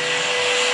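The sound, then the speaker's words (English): A cleaning crew's vacuum cleaner runs in the Oval Office, giving a steady, loud whooshing drone with a thin high whine that holds constant through the brief moment. “That's the sound of the cleaning crews coming to scrub the stench of your corruption and the stains from your lies from the Oval Office.”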